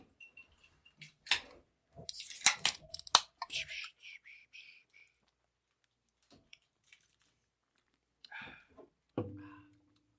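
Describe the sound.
Drinks being opened and sipped: scattered sharp clicks and clinks, a short fizzing hiss, then a few quieter small sounds spaced apart, all faint.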